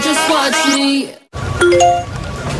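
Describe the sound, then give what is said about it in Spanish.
A Securitas Direct security alarm sounds its electronic notification chime: a bright, loud jingle with a rising glide, a brief silence, then more clear, sustained electronic tones. “Notificación Securitas Direct. Persona detectada en el jardín.”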